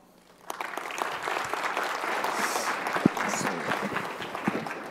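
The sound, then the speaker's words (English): Audience applause welcoming a speaker onto a stage, beginning suddenly after a quiet half second and then continuing as a steady patter of many claps, with a few sharper individual claps standing out. “And now I would like to welcome on stage Simon Eldridge. Please give him a hand.”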